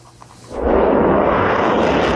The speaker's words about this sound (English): In a split second, Taiwan's night sky lights up and a ball of fire shoots out into the clouds. This is Taiwan's Xiongfeng missile, the country's domestically produced long-range missile.